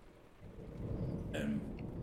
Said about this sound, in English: The storm outside is now fully